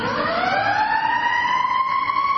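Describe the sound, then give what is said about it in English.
A fire engine siren wails as the truck goes by, one loud, continuous tone whose pitch climbs slowly and steadily across the whole stretch, with no voices. “The fire engine going by.”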